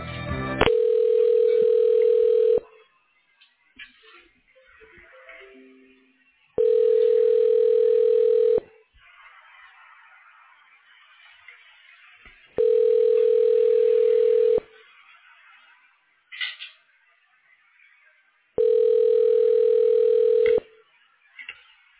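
Telephone ringing tone while a call is transferred to an imaging institute voicemail. Four loud, steady buzzing tone bursts of about two seconds each are separated by roughly four-second gaps of faint line noise.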